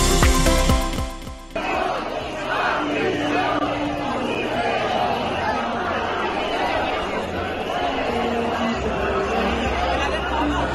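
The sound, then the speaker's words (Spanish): Dense crowd noise from more than 20,000 protesters gathered in the town hall square of Alicante, rallying against an amnesty. A steady, loud wash of mixed voices and chatter fills the whole clip. “Este es el sonido de la plaza del Ayuntamiento de Alicante, donde se congregaban ayer más de 20.000 personas clamando contra la amnistía”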